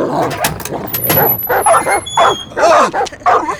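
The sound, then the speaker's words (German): Dogs barking and yipping at an open workshop door, loud, with many short, sharp barks in quick, irregular bursts that overlap throughout. “Halten Sie die Hunde zurück.”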